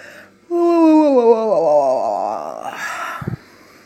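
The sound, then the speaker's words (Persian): A human voice imitates a dragon yawning with one long, drawn-out moan. Its pitch sinks partway through, and it ends in a breathy, airy exhale before cutting off. “اژدها تکونی خورد و چشماشو باز کرد. تا ققلی رو دید خمیازه‌ای کشید”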